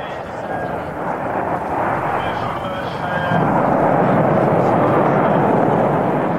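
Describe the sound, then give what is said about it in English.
A rocket launch lifts the UK's first astronaut toward the Mir space station in May 1991. A deep, broad roar builds and grows louder partway through, then holds as a heavy, sustained rumble. “But let's begin with a launch. On May the 18th, 1991, the UK's first astronaut was blasted into space on an eight day mission to the Mir space station.”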